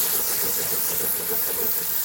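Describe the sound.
Onion sizzles in a hot pan as it is stirred, a steady, even hiss of frying that holds at a constant level throughout, with no voices.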